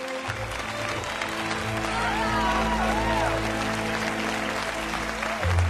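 Crowd applause at an awards ceremony as a winner receives flowers and an award on stage. A continuous, dense wash of clapping lasts several seconds over a sustained musical tone, with a few rising and falling whistles.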